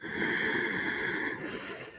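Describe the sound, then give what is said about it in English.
A deep inhale through the nose during a guided meditation: a soft, airy, steady breath lasting over a second, then tapering off into quiet. “let's all begin again by taking in another beautiful inhale in through the nose.”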